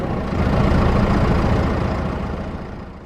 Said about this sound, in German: Etwa auf dem Traktor, sagt Bauer Brüne. Starten muss man noch händisch und man muss auch vorher die Kupplung treten.